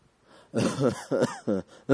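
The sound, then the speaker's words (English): A person imitating an old blind man coughing, voicing a few rough, throaty hacks in quick succession, each short and gravelly. “And this old man, the blind man, coughing.”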